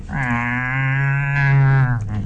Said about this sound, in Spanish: No me espantes, vaca. ¿De dónde saliste?